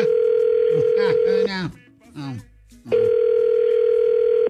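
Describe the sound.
Steady telephone dial tone as an outgoing call is about to be placed, loud and unbroken, cut off midway by a few seconds of a voice before the same tone returns.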